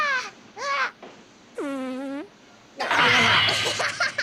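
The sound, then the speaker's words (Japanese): A cartoon fart sound effect in an animated scene about foul air: a short, buzzy, pitched blurt under a second long, set between brief vocal sounds and followed by a louder, noisy burst. “後ろから出ちゃった。 これ以上空気汚すな。”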